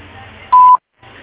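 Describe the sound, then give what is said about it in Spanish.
Voicemail beep before message recording: a single short, clear electronic tone with faint line hiss before it, then silence. “Si desea, deje su mensaje en la casilla de voz. Después del tono, grabe su mensaje.”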